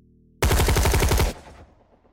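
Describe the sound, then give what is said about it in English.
Automatic gunfire from a barricade pinning fighters behind a concrete barrier: one loud, rapid burst of shots lasting about a second, then a rumbling tail that fades away. “A storm of bullets from the barricade pinned the Trishul operatives to their defensive position behind the concrete barrier around the tank.”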